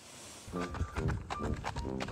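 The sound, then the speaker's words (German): Hoofbeats of a horse jogging beside its owner across an open meadow, a quick, regular clip-clop of many steps over a faint tonal background sound. “Karl Leier mit seinem Pferd Pegasus. Und das nicht nur auf offener Wiese wie hier. Nein, das Duo joggt auch selbstverständlich durch die Stadt”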